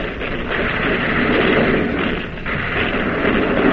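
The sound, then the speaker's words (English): The main battery guns of the cruiser Boise firing shells at an enemy cruiser in a naval battle: a dense, loud, rumbling barrage that runs throughout, with no separate blasts standing out. “Now the main battery of the Boise is pumping shells at the second Jap cruiser.”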